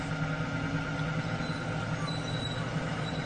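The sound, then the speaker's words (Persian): A bus engine drones steadily during a ride home, a continuous, fairly loud low rumble mixed with road and cabin noise, with no voices. “طاهره و علی توی اتوبوس در راه برگشت به خونه هستن.”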